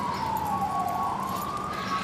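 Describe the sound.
A siren wails without a break, its sustained tone dipping slightly and then rising again over steady background noise.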